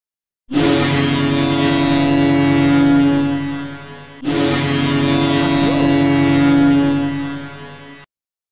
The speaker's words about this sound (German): Doch schon richtig mit Schiffshupe.